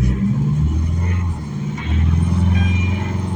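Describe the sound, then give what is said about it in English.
An Isuzu D-Max pickup engine, in a commercial vehicle, pulls away with a loud, chunky, steady low rumble that dips briefly partway through, then swells back up. “Right, and let's pull away, let's have a listen.”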